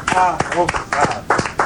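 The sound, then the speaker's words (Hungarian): A few scattered hand claps as a radio show host signs off, sounding under people talking. “Tapsoljuk meg így, búcsúzok én.”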